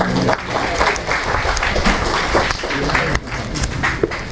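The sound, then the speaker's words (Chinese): Dense, steady applause from an audience welcoming a director before a university talk, continuous clapping lasting about four seconds with a brief dip near the end. “下面的话，我们热烈欢迎这个周主任。”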